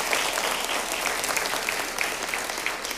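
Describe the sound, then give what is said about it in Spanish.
Congregation applause in a church, an even, dense wash of many hands clapping at once, fairly soft and unbroken for about three seconds. “¿Por qué no damos una ofrenda de palmas?”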